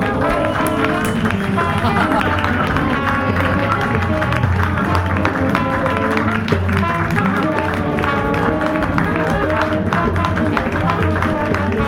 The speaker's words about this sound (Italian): Applauso. Bravo. Bravo, bravo, bravo